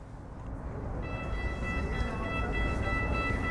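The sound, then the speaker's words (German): A Cairo metro train arriving, its low, steady rumble joined partway through by a sustained high-pitched warning tone that continues to the end. “Die Metro fährt fast normal in Kairo. Alle paar Minuten kündigt das Warnsignal die Einfahrt eines neuen Zuges an.”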